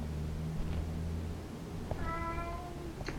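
A cat meows once, a drawn-out, tonal call rising out of a steady low hum, with a faint short chirp just before it and another right after.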